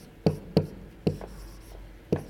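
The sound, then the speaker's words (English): Handwriting with a pen or marker: a few sharp taps and short strokes, faint and irregularly spaced, with no talk. “Let me write it like this.”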